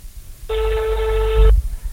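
A telephone rings once in a steady electronic burst of about a second, over a low rumbling background that thumps briefly just as the ring ends.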